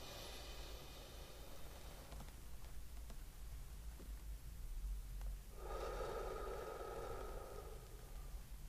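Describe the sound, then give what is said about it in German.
A slow, faint breathing exercise: a soft inhale, a quiet pause while the breath is held, then a longer, breathy exhale, with no talking. “drei Sekunden einatmen, drei Sekunden Luft anhalten, drei Sekunden ausatmen.”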